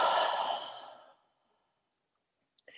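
A deep breath, heard as one long, sighing exhale that starts strong and fades away into silence. A brief, faint breath follows at the very end.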